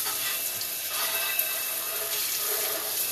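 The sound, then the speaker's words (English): Tap water runs steadily into a sink while glasses are washed under it, a continuous even hiss with no voices. “I need to wash off my glasses, and normally I would pause here, but I'm going to just kind of let this play for a second, so just hang on.”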